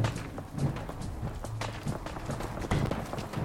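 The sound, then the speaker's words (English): Running footsteps in a video game as a character dashes through buildings: rapid, irregular thuds over a steady bed of background noise. “I'm running through buildings.”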